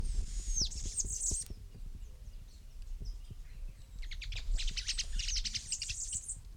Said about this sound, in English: Two birds calling.